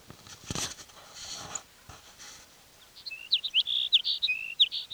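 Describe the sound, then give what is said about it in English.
A sparrow chirps in a quick series of short, high, sharp notes. They cluster in the latter half, after some faint scattered noise. “sparrow number 6.”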